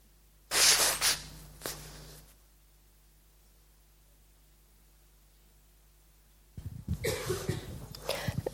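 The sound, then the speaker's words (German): Someone blowing their nose: a loud, forceful, hissing blast of air, then a shorter weaker one, followed by quiet and later another stretch of breathy noise. “Entschuldigung, muss mich einfach schneuzen.”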